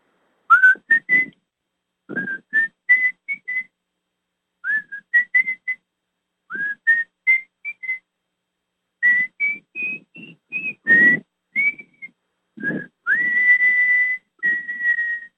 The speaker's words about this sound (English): That's what that little whistling tune is